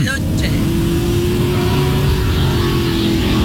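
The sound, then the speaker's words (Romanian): Steady, droning motor hum of an electric Ferrari car, holding an even, continuous level throughout without clear revving or changes in pitch. “Ia-uzi Ferrari electric cum face.”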